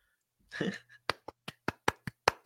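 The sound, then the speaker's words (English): One person claps hands about eight times in a steady, even rhythm, each clap a sharp, crisp crack. A brief voice-like sound comes just before the claps. “I'm giving him a round of applause because he deserves it.”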